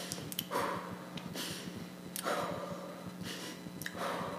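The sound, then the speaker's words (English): Quiet birth breathing from a woman in active labour during a home birth, a few soft, breathy inhales and exhales in a repeating rhythm, with no speech over them. “I switched from calm breathing, which is like a slow 1, 2, 3, 4, 1, 2, 3, 4, 5, 6, 7, 8, to a birth breathing, which is like,”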